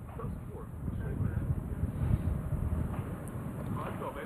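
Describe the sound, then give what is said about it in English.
Wind picking up outdoors at a competitive match, a steady, loud rushing noise buffeting the microphone with small swells in strength throughout. “The wind's starting to pick up here.”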